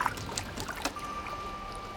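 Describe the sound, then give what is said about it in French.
A raft drifting over a calm sea, with a soft, steady wash of water and gentle trickling, plus a few faint light splashes or knocks early on. “On dirait que le radeau vogue plus vite. Comme porté par l'espoir. La mer est calme, maintenant.”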